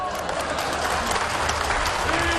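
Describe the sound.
An audience claps during a crosstalk comedy performance, with even, continuous applause that holds steady for the whole stretch.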